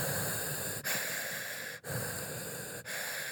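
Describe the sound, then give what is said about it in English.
A grainy, hissing breath sound made by shaping the tongue inside the mouth: a steady, rough stream of air broken by three brief dips, heard faintly without talk. “you arrange your tongue in your mouth to make the breath sound itself much more grainy and audible”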